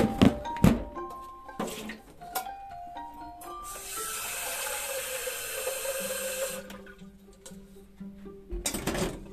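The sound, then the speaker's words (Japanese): Water runs from a tap into a stainless steel kettle, about 300 cc for heating on a gas stove to brew tea. A few faint knocks and clunks come first, then a steady hiss of flowing water for several seconds, then more handling knocks. “お湯を沸かし始めますね”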